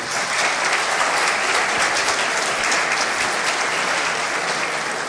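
Audience applause at a panel at a startup entrepreneurs' Yalda event fills the whole stretch as a loud, dense, steady wash of clapping without breaks.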